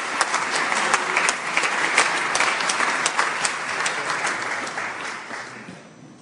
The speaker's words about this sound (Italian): accogliamo con un caloroso applauso la Ministra